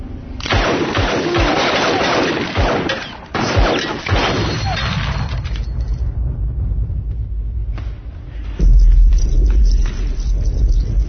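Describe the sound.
A gun is fired in a rapid string of shots. The loud, overlapping reports blend into a dense, continuous clatter that gives way to a low, steady rumble toward the end.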